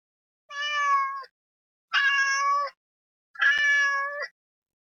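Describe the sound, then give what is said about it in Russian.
A cat meows three times, each meow clear, drawn out and loud, with short silent gaps between them and no other sound. “У меня есть кошка.”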